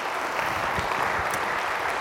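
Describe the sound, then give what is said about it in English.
A church audience applauds itself with a steady wash of clapping at moderate loudness. The sound stays even across the whole stretch. “You guys need to applaud yourself for that because you're a part of it. You can do that. You could do that.”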